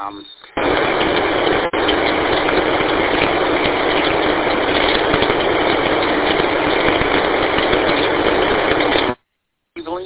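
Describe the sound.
A car engine and road noise while driving: a loud, steady, dense roar that runs almost unbroken, with a brief dip early on and a short cut-out near the end.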